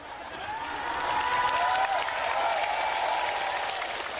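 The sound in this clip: Audience applause during a speech at a community gathering, a dense, even patter of clapping that swells slightly and holds for about four seconds.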